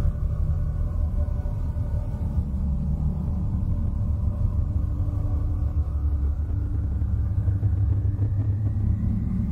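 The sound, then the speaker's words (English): Electromagnetic emissions of the planet Uranus rendered as sound: a loud, steady, low rumbling drone that holds evenly from start to end without pause. “As for electromagnetic frequencies, however, Uranus itself sounds like this.”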